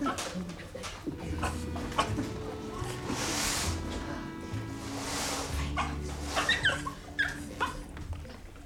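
A sick dog whimpers and gives a few short yips while being tended to. The sounds are brief and irregular, growing sharper and more frequent toward the end.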